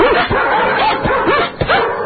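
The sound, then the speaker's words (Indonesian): A wild dog yelps after being struck, giving a run of high, whining yelps and whimpers in quick succession, loud and without talk. “Dan akhirnya, tangannya bergerak memukul anjing hutan.”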